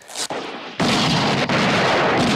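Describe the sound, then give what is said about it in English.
Gunfire during a standoff with a gang of men: loud abrupt blasts, each followed by a sustained harsh roar of noise, with no voices heard. “Dave takes a shot at Garrett's men.”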